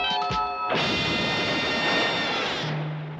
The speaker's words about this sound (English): We have an actual real police van that we're just chucking off this cliff for real. There it goes.